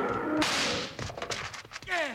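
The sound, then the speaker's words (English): A sharp rifle shot fired at a charging grizzly bear in a radio drama cracks out loudly with a long noisy tail, followed by a few smaller crackling impacts. “Thanks, Bill. It took plenty of lead. I just got in the last shot.”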